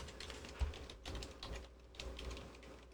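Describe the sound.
Fingers tap a computer keyboard in quick, irregular bursts of many faint key clicks over a low background hum.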